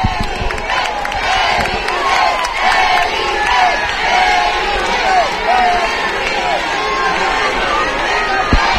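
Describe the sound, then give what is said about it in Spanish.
Crowd cheering and shouting in Plaza de África, a city square, during a royal visit as the king and queen greet onlookers. A dense, loud, steady roar of many voices with whoops runs throughout. “escucharán ustedes ahora mismo a las personas que están en esta zona de la Plaza de África, también de la avenida López Sánchez Prado, se acerca, escucharán ustedes, vamos con el sonido ambiente.”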